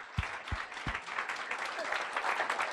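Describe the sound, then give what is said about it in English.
Audience applause greets guests coming onto the stage at the Chambre Theater, a steady, dense, fairly soft patter of clapping opened by a few low thumps. “Let's give them a big hand. Let's give them that love hand.”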